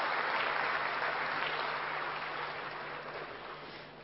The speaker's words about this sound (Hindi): हम सभी करतल ध्वनि से योगिनी बहन जी का स्वागत करेंगे।